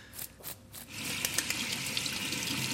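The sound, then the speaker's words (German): Tap water runs as lamb meat is rinsed in a kitchen. A few soft splashing bursts settle into a steady, faint, hissing flow. “Spülen. Und abtrocknen.”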